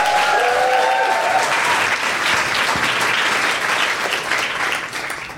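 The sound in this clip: Loud audience applause welcoming a speaker to the stage at a live comedy show. Dense, sustained clapping with a whistle and cheering at the start, holding steady before fading away at the end.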